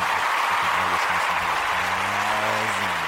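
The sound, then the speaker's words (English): A canned audience applause sound effect is played on a live show, a loud, steady wash of clapping that holds evenly for the whole stretch, with low tonal hums running beneath it. “Let's hear it for our audience. We can play a little audience sound.”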